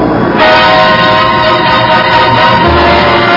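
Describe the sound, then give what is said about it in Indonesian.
A train moves off while a sustained, horn-like tone rings out above a loud, continuous rumble of rolling wagons that holds steady to the end. “Arya Kamandanu masih berdiri penasaran ketika kereta itu bergerak menjauh”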